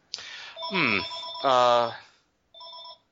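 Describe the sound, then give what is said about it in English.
An electronic telephone ring plays a short, fairly loud run of warbling, melodic tone bursts, with a brief pause before a final shorter note. “Sorry about the phone.”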